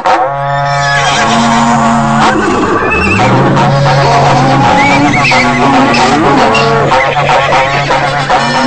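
Loud, overlapping animal calls from a herd of pack animals driven out through a gate: whinnies and neighs mixed with lowing and honking cries, continuous throughout without a break.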